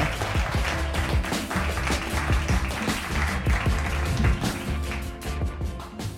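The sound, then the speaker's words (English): Audience applause welcoming guests onto the stage at a live comedy show, with sustained, dense clapping and sharp individual taps that continue at an even level for about six seconds. “would you please put your hands together and welcome to the stage tonight”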